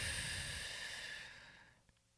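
A deep, slow exhale during a guided breathing exercise, a soft airy rush that gradually fades to quiet over about two seconds.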